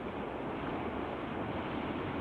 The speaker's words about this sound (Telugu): పడవలో ఉన్నా అందుకే గాలికి ఊగిపోతుంది. అంత చీకటిగా ఉంది. పడవ ఊగుతున్నది నది మీదేనా? నది కాదు, ఇది సముద్రమే.